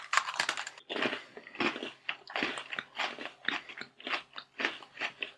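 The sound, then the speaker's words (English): Crunchy biting and chewing of a cream-filled Oreo-like cookie: many sharp, dry crunches in quick irregular bursts, loud and close, with no talking. “It tastes like an Oreo with more cream. That's a lot of cream. Yeah. I don't like the way that my teeth feel when they cut through it.”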